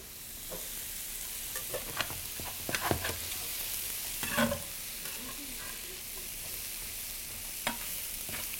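Ingredients for Kung Pao chicken cook in a pan with a soft, steady sizzle, broken by light stirring scrapes and a few sharper clicks. The sound is faint, with no talk.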